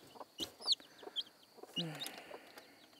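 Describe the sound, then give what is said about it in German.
Hen clucking in a few short, faint bursts of calls, with some sharper high chirping notes scattered between them. “Ist nicht so einfach, einen Huhn auszutricksen. Ist auch richtig hartnäckig.”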